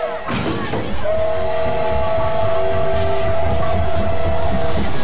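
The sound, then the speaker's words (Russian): A train at the railway station in Brest: a sustained, steady whistle blast lasts several seconds over a constant rumbling background. A brief burst of noise comes just before it. “Толпа пассажиров бросается осаждать вагоны поезда. Брест. Железнодорожный вокзал.”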